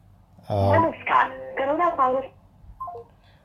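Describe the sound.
Telephone tones from a call placed by mistake: a few stepped electronic notes ring out first, then a quieter short tone sequence near the end, with faint background hiss between.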